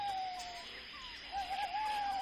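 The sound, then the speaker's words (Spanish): An old owl hoots in a few sustained, mid-pitched calls that waver slightly, set against a steady background hiss. “mientras que el viejo búho ululaba”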